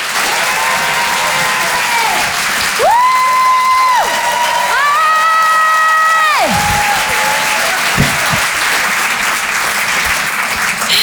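A comedy club audience at the Apollo Théâtre in Paris claps and cheers steadily as a comedian is introduced. Dense, loud applause runs throughout, with some sustained tonal sounds and scattered whoops above it.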